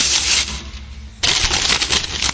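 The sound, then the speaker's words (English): Mail is ripped open as a sound effect: loud, crackly paper tearing, a short drop in level just after one second, then a second, longer tear. “We like sound effects here. I like it. I was like, you know, let's rip open some mail.”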